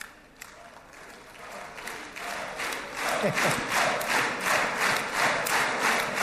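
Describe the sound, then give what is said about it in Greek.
Israeli lawmakers cheer and applaud, with dense clapping mixed with shouts that swell louder after the first few seconds and then hold steady. “Ακούμε τις επιφημίες από τους Ισραηλινούς βουλευτές.”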